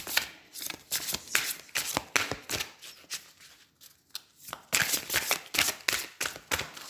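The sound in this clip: Tarot cards are shuffled by hand, giving many quick papery riffles and flicks in rhythmic bursts. They are faint and alone, with a brief quieter pause midway before the shuffling picks up again.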